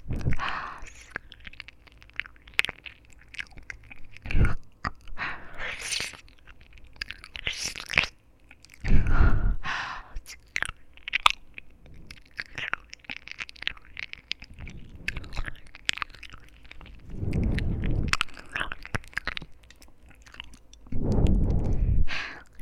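Close mouth chewing sounds of ear-eating ASMR: many wet, irregular smacks, bites and crunchy squishes, mostly soft with a few heavier bursts.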